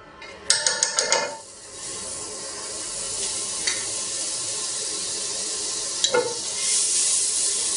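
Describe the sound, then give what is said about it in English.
Onions, garlic and capers sauteing in butter in a pan: a few quick clinks and clatters at the start, then a steady hissing sizzle with occasional sharp taps, and no voices. “add a little bit of butter to the pan again and just saute some onions, garlic and capers.”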